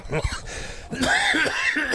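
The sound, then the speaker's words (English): Coughing from a man with a lingering cough: a few rough, throaty bursts running together with strained, voiced sounds, fairly loud and continuous. “I wish I were over this cough”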